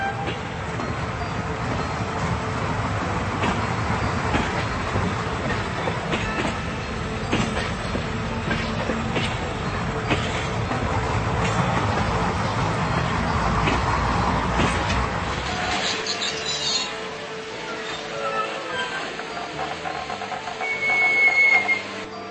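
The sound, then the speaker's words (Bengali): A train arriving and blowing its whistle: a steady rumble and clatter of rolling wagons runs throughout, easing off near the end, where a brief high whistle tone sounds. “আর এর মধ্যে হঠাৎ করে সে ট্রেনের whistle শুনতে পেল। Train এসে পড়েছে।”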